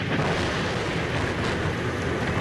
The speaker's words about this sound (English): But the heavy rain and thunder that stormed the Roman skies failed to stop the pilgrims who had come to St. Peter's Square to join Pope Leo XIV at the weekly general audience